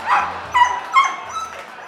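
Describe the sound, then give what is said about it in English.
A dog barks a few short, sharp times, the barks clear and unaccompanied by talk. “One night, mid-performance, Beauty started barking. She'd discovered an intruder.”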